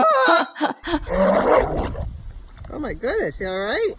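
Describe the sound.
A voice imitates a hideous dog coming out of water, starting with a raspy, growling rush and then moving into wavering, warbling cries that rise and fall in pitch. It is loud and continuous throughout.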